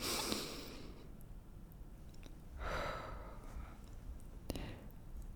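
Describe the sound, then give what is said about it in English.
Soft, airy breathing: a deep breath is drawn in through the nose and let out through the mouth. The breaths are quiet, with hiss-like swells and no talking. “let's begin by taking a deep breath together, in through the nose, out through the mouth”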